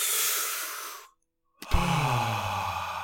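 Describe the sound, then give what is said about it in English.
Big, deep breaths taken to settle down. A long, airy exhale fades into a brief silence, then another breath comes out as a low, voiced sigh. “Let's do some big, deep breaths.”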